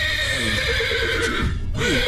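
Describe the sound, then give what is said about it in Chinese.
A stressed horse that bites whinnies in short, shrill bursts over a constant loud hum. It has broken horseshoes and sore hooves and is confined in a transport compartment. “我来看看这个咬人的马。”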